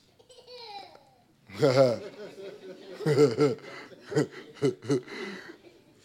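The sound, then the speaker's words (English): A baby babbles and chuckles in a string of short, high-pitched voiced bursts, with soft chirpy sounds at first and then louder gurgling laughs that come in quick succession. “That's the sound of a baby.”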